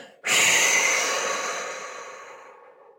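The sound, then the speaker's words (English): A person breathes out hard, blowing all the air out in one long, airy exhale. It starts abruptly and loud, then fades gradually over about three seconds, with no talk. “So just first, just like blow all the air out, let it all go.”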